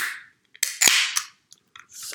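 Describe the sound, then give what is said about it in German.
A drink container being opened: a sharp snap and a hissing burst of released pressure, surrounded by a few small clicks and soft rustles. “Ich mache mir ganz kurz hier mir was zu trinken mal auf.”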